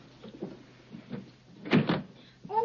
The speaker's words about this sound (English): In the bedroom, Lucy shuts the French windows.